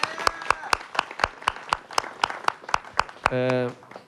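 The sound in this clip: An audience claps for a bass player being introduced before a concert, in evenly spaced, sharp claps at a brisk steady tempo, followed by a brief tonal sound near the end.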